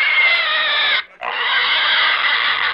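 A pig squeals loudly and shrilly in two long, sustained bursts separated by a brief pause near the middle, the harsh, strained tone holding steady within each burst.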